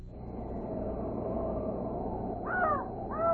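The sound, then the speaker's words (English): A raven gives two harsh, descending croaks near the end, rising above a steady, noisy background bed. “I only hear a raven croaking.”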